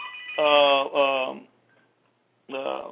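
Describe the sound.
A telephone rings, interrupting a preacher's religious talk: a bright electronic tone sounds in two quick bursts, goes silent for about a second, then starts a third burst.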